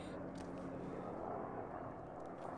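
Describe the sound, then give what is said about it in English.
A helicopter flying overhead makes a low, continuous rumbling roar that stays faint and steady throughout, with no clear individual beats and no voices. “I don't know if you can hear that helicopter, but sorry.”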